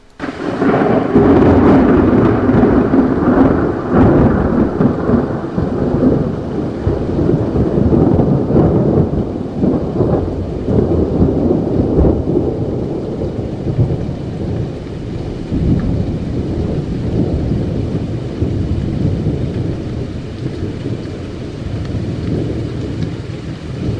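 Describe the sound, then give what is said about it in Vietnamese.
A sudden thunderstorm with heavy rain and gusting wind lashing against a window: a continuous loud roar of downpour mixed with low rumbling thunder, strongest at the start and easing slightly over the span. “Cơn mưa này đến quá đột ngột mà lại còn đáng sợ. Cuồng phong xen lẫn hạt mưa to như là hạt đổ tấp lên trên cửa sổ, giống như muốn xông vào ở trong phòng.”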